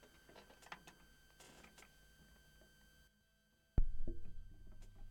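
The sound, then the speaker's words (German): A record player needle is lowered onto a vinyl record spinning at 45 rpm. Faint crackle gives way to a brief hush, then a sharp thump lands, followed by decaying surface noise and a low hum. “Wir werden da mal reinhören auf der Seite 2 auf 45 Umdrehungen pro Minute. Ich lege mal die Nadel vorsichtig hin.”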